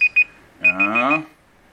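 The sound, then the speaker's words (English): A timer alarm beeps: two quick high-pitched beeps, a short pause, then a further run of beeps over a brief voice-like sound. “What if I had set this timer for 1 minute, or maybe 2 minutes?”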